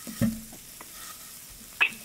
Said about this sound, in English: I just put a piece of sausage in there and crushed it down